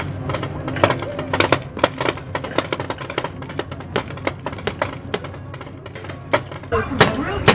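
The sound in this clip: Paintball guns fire during a zombie paintball game at a scare attraction, giving many sharp, irregular pops in rapid bursts, with voices mixed in.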